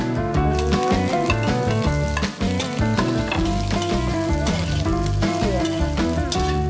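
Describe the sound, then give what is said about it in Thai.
Garlic and chili sizzle in a pan as pork is added to fry, a loud, steady crackle that runs throughout with only a brief dip partway through. “เจียวให้เหลืองๆหน่อยให้กระเทียมกับพริกมันหอมหน่อยแล้วก็ใส่หมูน้ำค้างลงไปเลยโอเคลงได้เลยค่ะหมูโอ้จะไหม้แล้วค่ะ”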